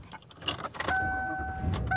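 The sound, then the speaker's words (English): A car being driven home, with a steady low rumble of the vehicle and a jangle of keys, then a sustained electronic chime tone that holds steadily and returns briefly at the end. “And I am driving home.”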